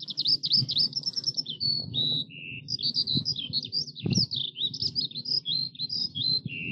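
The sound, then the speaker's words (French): Eurasian skylark song from the countryside: a faint, unbroken stream of rapid, high warbling trills and chirps running on without pause over a low rumbling background. “l'oiseau le plus connu qu'on rencontrait le plus souvent était celui qui dominait, et domine toujours, la campagne. L'alouette des champs.”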